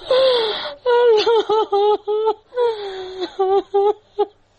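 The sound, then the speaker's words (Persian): A grieving mother cries for her two daughters, killed in a car bomb blast in western Kabul. A long, high, wavering wail breaks into many short, choked sobbing cries, loud and alone. “این صدای گریه مادر نگینه و زحل، دو دختری که هفته گذشته در انفجار موتر بمبگذاری شده در غرب شهر کابل جان باختند.”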